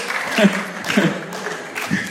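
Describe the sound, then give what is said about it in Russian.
Applause from a church audience celebrating the risen Saviour at an Easter service: a continuous wash of clapping with a few louder bursts and some voices mixed in. “Аплодисменты воскресшему, живому Спасителю нашему. Бурные и продолжительные аплодисменты.”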